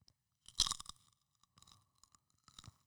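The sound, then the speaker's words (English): Crunching on white cheddar popcorn while eating in an ASMR-style setting: one loud, crisp crunch comes first, then a few softer, brief chewing crunches with quiet gaps between them. “Smart food. White cheddar popcorn.”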